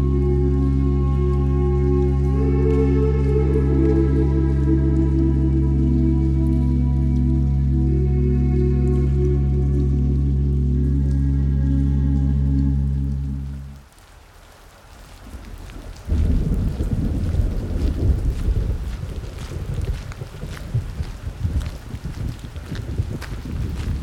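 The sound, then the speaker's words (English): Storm noise during a king tide: a loud, deep rumbling roar holds for about thirteen seconds and then fades. A dense, rain-like hiss with pattering follows and continues to the end. “you are heading through King's Tide, the wind whipping around you”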